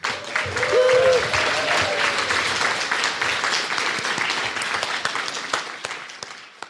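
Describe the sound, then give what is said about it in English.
An audience at the Mayor's Pride Awards 2019 applauds the year's nominated people and groups. The clapping swells quickly to a full peak, then thins and tapers gradually toward the end. “please put your hands together to congratulate all the fantastic people and groups that were nominated this year for the Mayor's Pride Awards 2019”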